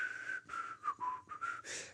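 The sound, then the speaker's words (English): A person whistles a short, wavering tune of several notes, imitating a man's nervous habit of whistling under stress. The whistle is faint and heard alone. “Or I used to know another guy who would always whistle, and the more stressful things got, he would always,”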